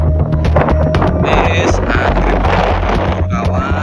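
Strong whirlwind gusts roar over a burning savanna on a volcanic mountain in East Java. The wind is a loud, continuous rush with heavy microphone buffeting and a deep low rumble, with no pause across the whole stretch.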